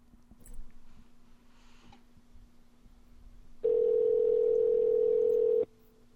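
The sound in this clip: A telephone line tone sounds while a call is placed to a listener: a single continuous, mid-pitched electronic tone holds for about two seconds after a stretch of faint low hum.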